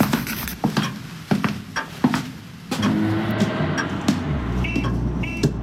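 A fast car drives up: a few sharp clicks and knocks give way to a building engine rush, ending in a low, steady rumble.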